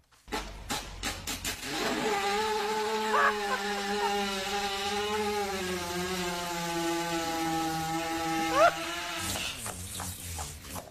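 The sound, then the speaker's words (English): A horse lying on its side with digestive discomfort passes gas in a long buzzing, sputtering tone that holds steady for several seconds, with short popping bursts at the start and end. “So when they have digestive discomfort, what happens? They lie on their sides and just let one go. Here's a little sound bite.”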